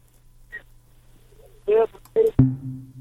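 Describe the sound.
A telephone line tone follows a listener's dropped call to a radio health phone-in: a few brief voice-like fragments, then a click and a steady low tone that holds to the end.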